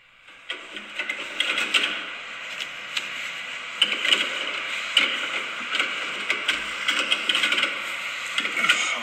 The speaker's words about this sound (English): It's a toilet roll that's too big for its dispenser.